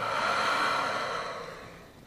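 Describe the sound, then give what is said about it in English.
A quick breath in and out during a guided relaxation breathing exercise: one loud, breathy rush of air that tapers off gradually over about two seconds. “Quick breath in”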